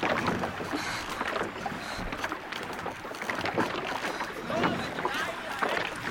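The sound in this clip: Canoe paddled through water: continuous splashing and rushing water noise fills the whole stretch with irregular surges, while people talk over it.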